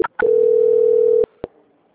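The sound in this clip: A telephone line tone plays during a call transfer. A couple of short blips lead into a steady single-pitch tone of about one second, which cuts off with a click and is followed by one more brief click.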